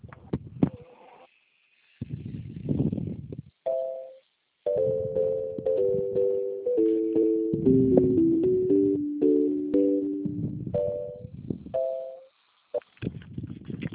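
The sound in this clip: Telephone hold music while a call is transferred: a simple, tinny electronic melody of stepped notes rising and falling, interrupted by a few short silent gaps.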